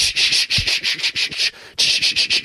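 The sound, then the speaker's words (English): Sandpaper rubs on wood in quick, rhythmic back-and-forth strokes, a harsh hissing scrape repeated many times with one short pause partway through. “we use sandpaper to make things smooth. To make wood smooth, for example”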